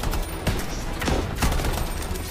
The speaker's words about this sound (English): We played Anthem. It was weird. Oh my god, I keep getting hit by rockets! I can't move!